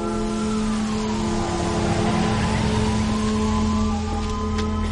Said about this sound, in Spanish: Al atardecer, el autobús se pone en marcha en una calle.